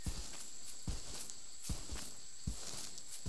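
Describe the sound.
Slow, careful footsteps through the jungle, about five soft thuds evenly spaced over a steady background hiss, with no talking.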